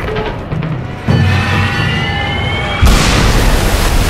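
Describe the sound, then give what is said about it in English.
Naval shells bursting in the sea around the cruiser Yahagi during a battle: a loud, continuous roar that jumps abruptly in force twice, with a high whining tone running over it. “Captain Hara muscles his lead cruiser, Yahagi, through a forest of 100-foot geysers of exploding sea.”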